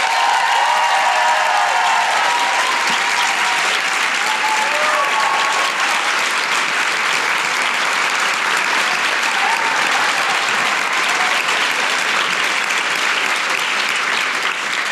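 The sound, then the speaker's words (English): Brisbane audience applauding and cheering a writer brought on stage, a long, loud wash of dense clapping with a few cheers that holds steady throughout. “Please put your hands together and make fabulous Brisbane noises for Michelle Law!”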